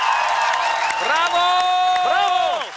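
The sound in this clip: Judges in the final of a Czech and Slovak talent show applaud and cheer from a standing ovation. Steady clapping sits under loud whooping voices that swoop up and down in pitch several times.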